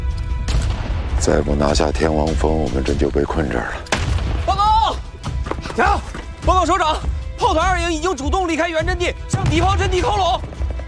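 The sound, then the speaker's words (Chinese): Artillery fire rumbles through a war drama battle scene, a heavy low booming bed that runs under loud, shouting voices throughout. “天王山主峰攻不上去，他们的炮火太强大了。他们的炮火密度比我们高，精度也够准，咱们的炮不行，够不上去，必须拿掉他们的炮火阵地。”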